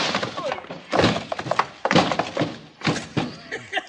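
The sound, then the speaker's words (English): Heavy thuds and crashing bumps as a man is thrown overhead and tumbles down a flight of stairs in an old western scene: a few loud, irregular bursts of banging impact noise. “you threw him right over your head and down the stairs.”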